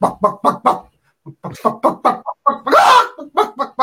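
A person imitates a chicken with a quick run of rhythmic clucks, a short pause, then more clucks around a longer, louder squawk.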